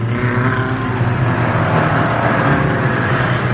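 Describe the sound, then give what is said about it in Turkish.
A car engine at full throttle on a cliffside road, a loud, steady roaring drone with a heavy low rumble that holds constant throughout. “Yanımız uçurum. Sıkı tutun baba. Sonuna kadar gaz veriyorum.”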